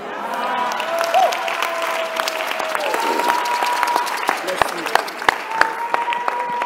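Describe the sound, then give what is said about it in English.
Applause from a church audience during a sermon: steady, dense clapping throughout, with a few sharper, louder claps toward the end over a sustained held tone. “You will clap better when I finish preaching.”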